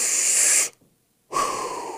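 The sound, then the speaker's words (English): A person takes a big deep inhale, heard as two long, loud, breathy hisses split by a short silent pause, with no talk over them. “Everyone take a big deep breath. Inhale.”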